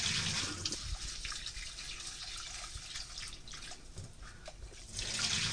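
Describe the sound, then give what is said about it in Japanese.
Water swishes and runs steadily as rice soaks and the first water is poured off, then the grains are gently rinsed. A continuous, fairly loud wash of splashing fills the whole stretch and swells slightly at the end. “一度水を捨てます。最初の水はすぐ捨ててしまってください。そしたら 2,3 回お米を優しく洗うように研いでいきます。”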